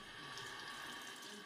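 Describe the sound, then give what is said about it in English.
Hands are washed under running tap water: a soft, steady stream of water pours continuously with an even hiss and no distinct splashes or voices. “hospital hygienist Ursula Perez-Lem recommends something else in addition to disinfectants, literally washing the virus off.”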